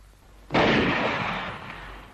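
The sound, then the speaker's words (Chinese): A single loud gunshot fired at a small boat on a lake, a sudden sharp crack that rolls off into a long, fading rumble, with no voices. “报告，前面发现一只小船， 开枪。”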